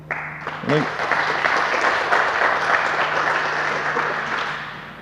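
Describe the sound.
Audience applause welcoming a speaker to the stage at a talk: dense, steady clapping that starts abruptly, holds loud throughout and tapers slightly at the end, with a brief voice early on.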